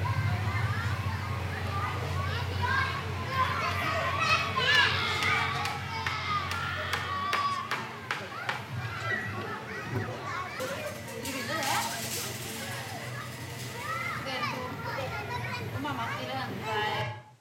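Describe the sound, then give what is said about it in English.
Children play at a kindergarten beside a construction site in Oslo, making a continuous, fairly quiet mix of shouts, chatter and high shrieks that carries on throughout. “The noise you hear was from the kindergarten nearby, not from the machineries.”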